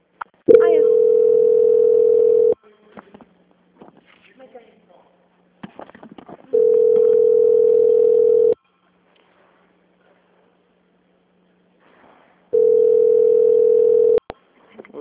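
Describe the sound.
A steady electronic telephone line tone plays while a call is transferred. It comes as three long, even beeps of about two seconds each, separated by longer quiet gaps with only faint background noise.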